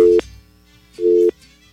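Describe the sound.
A telephone line tone sounds on a call to a line saturated by many callers: two steady, low electronic beeps about a second apart, each short, with near silence between them.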